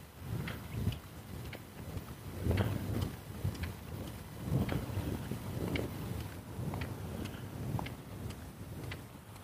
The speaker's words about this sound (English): Oh, there's a little breeze. A nice little breeze. The breeze in the trees seems to whisper the leaves.